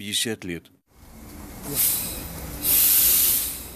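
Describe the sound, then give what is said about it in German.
Train arriving at a small station in Belomorsk, Russia: a brief voice at the start, then a low rumble builds, broken by two loud bursts of hissing air or steam, the second longer and sustained. “Der Zug ist auf die Minute pünktlich und hatte mich ausgespuckt.”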